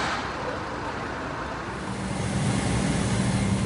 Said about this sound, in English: the drive to the airport began what would be a two-day journey.